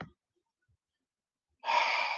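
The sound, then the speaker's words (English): Deep breath during a whole-body muscle relaxation exercise: a brief sound at the start, a stretch of silence, then a single breathy rush of air. “Now, I want you to do your whole body, tighten your whole body up, nice and tight. Hold, nice deep breath,”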